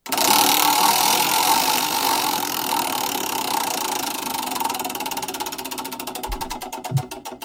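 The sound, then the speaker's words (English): A spinning prize wheel clicks rapidly over steady noise, with the ticks growing more distinct and slowing toward the end as the wheel winds down. “let's spin the wheel here and figure out who's going to go first.”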